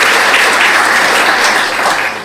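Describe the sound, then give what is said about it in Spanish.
Audience applause for the performers and hosts of a stage show: loud, dense, sustained clapping that stays even at first and then tapers off toward the end. “muchísimas gracias y un aplauso, por favor, para ellos.”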